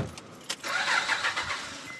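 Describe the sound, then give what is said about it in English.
A car engine starts for a drive, a short crank catching into a steady, fairly faint running hum. “We went along with Brian for the half-an-hour drive to the interview.”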